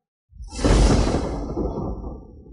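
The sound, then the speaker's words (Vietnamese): The whoosh of a long sword swept sideways in a horizontal slash: a single loud, airy rush that swells quickly, then slowly tapers over about two seconds. “xông tới trước một bước, trường kiếm trong tay quét ngang về hướng Ác Thi”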